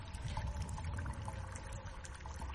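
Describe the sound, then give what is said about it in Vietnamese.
Water flows somewhere inside a cave, a faint, steady trickling wash that continues without distinct events or voices. “Ông Vương nghe thấy tiếng nước chảy đâu đó ở trong hang, đúng hơn tiếng nước đang chảy phát ra đằng trước.”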